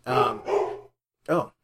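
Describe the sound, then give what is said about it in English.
A pet dog barks three times in the background, two deep, full woofs in quick succession, then a short pause and a third loud bark. “That's my dog Brad in the background.”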